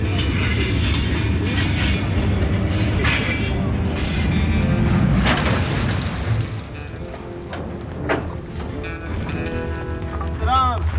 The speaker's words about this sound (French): Pourquoi vous êtes dans le grand train minéralier?